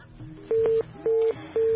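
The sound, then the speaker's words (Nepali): Disconnect tone on a phone line after a caller's call is cut off: three steady mid-pitched beeps of equal length, evenly spaced, over a faint background hum. “उहाँको phone अब जानेर काट्नुभएको हो होइन, नजानिकन अब कहिले कहिले त्यो समस्याको आइदिन्छ”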